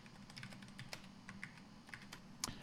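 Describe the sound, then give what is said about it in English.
Typing on a computer keyboard: faint, irregular key clicks tap in quick succession, with one sharper keystroke near the end. “Let me go ahead and just type in office hours.”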